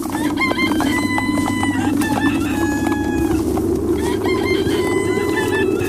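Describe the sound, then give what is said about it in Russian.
Roosters crowing at dawn in a village, several birds calling in overlapping, harmonic crows and clucks over a steady low rumble that runs through the whole clip. “Пели петухи, и было уже светло, как достигли они Жадрина.”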